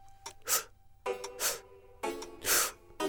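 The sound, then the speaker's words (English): A person draws a deep breath in three short increments: quick, breathy sniffing intakes bunched in threes, repeated a few times at a soft level with no speech. “We begin by inhaling a deep breath, but... in three short increments, like so.”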